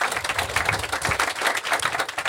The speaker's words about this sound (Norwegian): Velkommen, en liten applaus for Hilde.